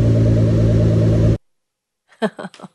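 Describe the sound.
A car engine gives a loud, steady, harmonic rumble for about a second and a half, then cuts off abruptly into silence before a brief voice follows.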